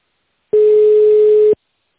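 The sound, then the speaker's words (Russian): A single steady telephone keypad beep on a phone menu line holds one mid pitch. It is loud and lasts about one second, with no talk. “Если вам нужна помощь офис-менеджера, нажмите 1 или оставайтесь на линии.”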